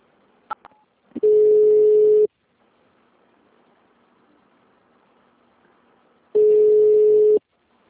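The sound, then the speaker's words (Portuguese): A telephone line sounds after a dropped call: a couple of sharp clicks, then two long, steady, mid-pitched tones of about a second each, separated by a long stretch of faint line hiss. “Oi, moça, acho que caiu a ligação. Aham, caiu.”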